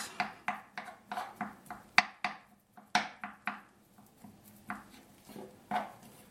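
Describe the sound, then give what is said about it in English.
A knife chops soft food into small pieces: many sharp, crisp chops in a quick, slightly uneven rhythm, each a short percussive knock that fades fast, with no talk over it. “This is very exciting to hear a knife chop stuff.”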